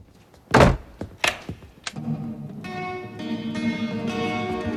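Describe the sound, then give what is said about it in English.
A few heavy thuds of a door being opened, loud and abrupt with short gaps between them, followed by a steady tonal sound that continues to the end. “Chloe answers her door and Luke enters, signaling for quiet.”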